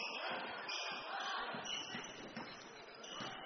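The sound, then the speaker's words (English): Basketball dribbled on court during a game in the third period, the ball bouncing steadily under a constant wash of crowd noise. “Another dribbling display out top here”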